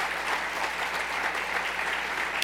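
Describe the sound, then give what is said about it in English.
Audience clapping for a speaker at a talk: a thick, steady round of applause from many hands, holding at an even loudness. “Don't clap, because I only got 3 minutes.”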